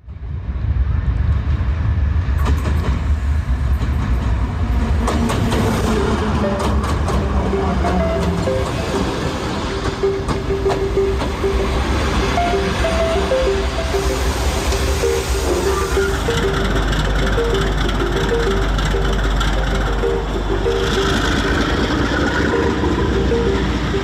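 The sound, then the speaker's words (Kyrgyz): A commuter train passes with a loud, steady rumble that fills the whole stretch. A sustained tonal whine runs through it and the noise shifts in texture partway through. “бул поезд бул эң арзан, эң ыңгайлуу коммундук транспорттордун түрү”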